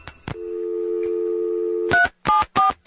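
Telephone dialing: two sharp clicks, then a steady dial tone, then a quick run of short touch-tone keypad beeps as a number is punched in.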